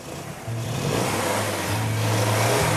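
A car engine starting after an attempt to turn it over: it catches and runs with a loud, steady, low hum that rises slightly in pitch toward the end.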